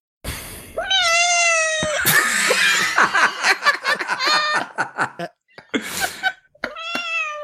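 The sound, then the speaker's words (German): A cat meows repeatedly: a few drawn-out, wavering meows mixed with short breathy and chattering bursts. The calls are loud and close together, with a brief pause before a final meow. “Was machst du mit der Katze?”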